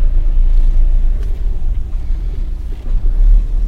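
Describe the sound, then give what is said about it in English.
A car reverses round a corner into a parking space, giving a steady low engine rumble throughout, loud and without talk. “Reversing round the corner into our parking space.”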